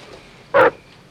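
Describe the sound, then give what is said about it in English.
A dog gives a single short, sharp bark that stands out loudly against an otherwise quiet background. “Oh, the dog. Can somebody please make that dog shut up?”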